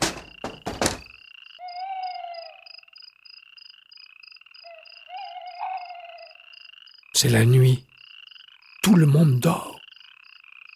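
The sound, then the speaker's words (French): Tree frogs, small green frogs heralding spring, call in a steady pulsing high trill that runs throughout, broken by two loud, harsh croaking bursts. A voice speaks briefly at the start. “Vous entendez? Ça, c'est le chant des rainettes, les petites grenouilles vertes.”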